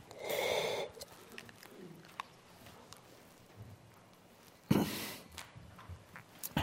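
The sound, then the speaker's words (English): Throat clearing by a preacher pausing during a sermon: two rough, gravelly bursts, one at the start and a sharper one later, with faint breathy noises between them and no speech. “I'm going to get rid of this thing in my throat, hopefully.”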